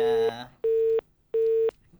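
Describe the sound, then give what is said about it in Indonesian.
A WhatsApp phone call rings with three evenly spaced, mid-pitched electronic beeps, each lasting about a third of a second and separated by short silent gaps. “kita kapan telepon selanjutnya di WhatsApp. Kita angkat dulu ya.”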